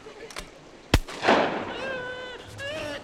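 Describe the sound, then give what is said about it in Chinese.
A single sharp gunshot is fired into the sky to scare off three wolves attacking a child. The loud crack stands out from faint background noise and is followed by a noisy rush and excited shouting voices. “我朝天开一枪，能吓跑他们就行。”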